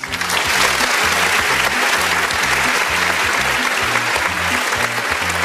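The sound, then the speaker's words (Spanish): Audience applause for a pair of people being honoured, a dense, even wash of many hands clapping that stays loud and steady for the whole stretch. “Un aplauso para ellos dos.”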